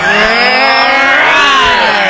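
Car engine revved hard, a loud, continuous harmonic roar that swells and holds without breaks for the whole stretch, with no voices.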